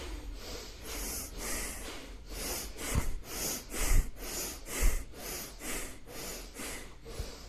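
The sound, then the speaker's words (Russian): Bhastrika yoga breathing: forceful nasal inhales and exhales pump in a fast, even rhythm, each breath a loud, rushing snort of air repeated many times with no talking. “и начинаем дышать бхастрику. Здесь мощный вдох носом и мощный выдох.”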